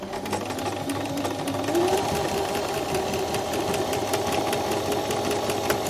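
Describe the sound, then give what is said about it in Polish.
A sewing machine stitching a zigzag seam whirs and clatters in a rapid, steady mechanical rhythm, a continuous humming drone with fast knocking pulses running unbroken from start to finish. “I właściwie to są dwa podstawowe ściegi, które są w maszynie. Prosty ścieg i taki zygzak. Zygzak brzmi właśnie tak.”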